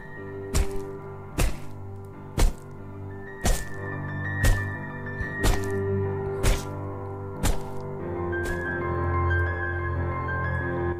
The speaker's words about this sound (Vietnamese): Rồi sau đó là tiếng dao mèo chặt vào xương cổ, phát ra những tiếng rợn cả tóc gáy.